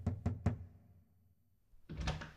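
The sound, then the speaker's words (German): Three quick, fairly quiet knocks on the door of a newlywed couple's room at daybreak, followed by a stretch of near silence. “Am nächsten Morgen, bereits bei Tagesanbruch, wagte Passepartout an die Tür des frisch vermählten Ehepaares zu klopfen.”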